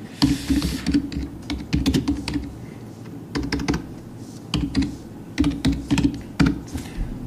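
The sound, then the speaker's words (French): Typing a search on a computer keyboard: clusters of quick, crisp keystrokes in several bursts separated by short pauses, with no voices over them. “Alors, si on tape instruction primaire,”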